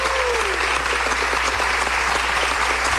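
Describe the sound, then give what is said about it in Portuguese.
A standing audience at a live show gives a guest loud, continuous applause, a thick wall of clapping over a steady low hum. “E continua aplaudindo. É isso aí. E já emenda no próximo, que aí eles não precisam levantar duas vezes. Aproveitando que estão todos de pé, palmas para Ednei Silvestre, maravilhoso.”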